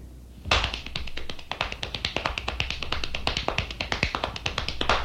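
Hands slapping and clapping in a hand jive: many sharp, quick taps in a steady, fast rhythm that runs throughout.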